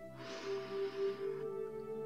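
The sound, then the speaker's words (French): A slow inhalation during a guided breathing and relaxation exercise: one soft, airy breath in lasting just over a second, heard over a steady, sustained tonal music bed that continues after the breath ends. “Je respire avec vous quelques instants. On inspire la lumière bleue et douce.”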